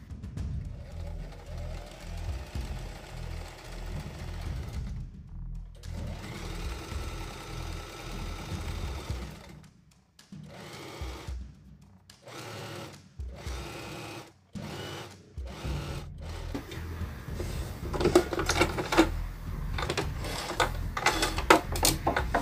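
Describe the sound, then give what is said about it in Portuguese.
A sewing machine stitches a seam across striped fabric at the width of one presser foot, its rapid mechanical whirring running in stop-start bursts: long runs at first, then many short spurts with pauses, then a steady, louder stretch. “E agora eu vou retirar os alfinetes e costurar com a largura de um pé de máquina de fora a fora aqui.”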